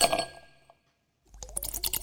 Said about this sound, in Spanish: levantamos la copa por lo bueno que pasó o lo bueno que va a pasar